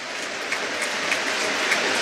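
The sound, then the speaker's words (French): Stadium crowd applauding during a minute of applause at a football match: a steady, dense wash of clapping that runs unbroken from start to end. “il y a cette minute d'applaudissement qui résonne particulièrement, vous vous en doutez, aujourd'hui.”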